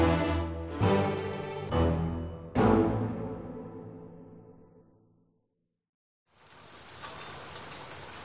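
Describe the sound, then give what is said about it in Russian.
Heavy rain pours down over a bus stop with a canopy, a steady loud hiss that begins after four ringing musical chords fade into a short silence. “Погода внезапно испортилась. Зарядил проливной дождь.”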